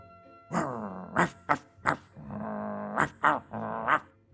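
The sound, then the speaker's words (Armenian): A human voice imitates a hunting dog's growl in a spoken children's story, giving several short, throaty, tonal rumbles of varying length with brief gaps between them. “Դա որսորդի շունն էր։ Բարև շուն։ Բարև, ինչ տարօրինակ ես մռնչում։”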